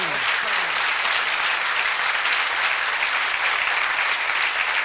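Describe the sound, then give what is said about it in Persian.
Dense crowd applause keeps up at an even loudness for about five seconds, with steady overlapping clapping and no pause. “هر کی پیرو به آن دو خبیث لاابالی نیست یک کف قشنگ بزنه.”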